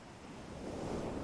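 Ocean waves washing onto a beach make a steady, broad rush of surf that swells louder toward the end of the brief moment.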